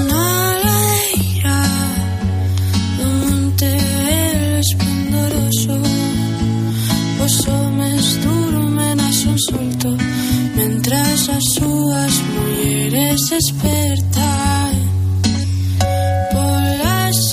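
Melodic song by a Spanish trio plays with a full, dense band arrangement and layered tonal lines, loud and steady from start to finish with no breaks.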